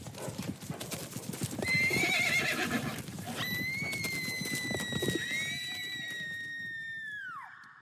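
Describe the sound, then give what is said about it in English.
A herd of palomino horses: hooves thud and scuffle under a loud rising commotion, then a long, shrill whinny holds steady before dropping away in pitch at the end. “the night before the wedding, she was trampled to death by a herd of palominos”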